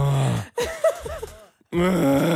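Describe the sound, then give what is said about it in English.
A man's voice groans and moans, imitating the guttural noises he makes while standing under the shower water. There are a couple of drawn-out, wavering groans, then a short grunt and a brief gasp. “A lot of moaning and groaning in the shower. I wasn't even really making the decision to do it, but just unconsciously, I'm just standing there under the water going,”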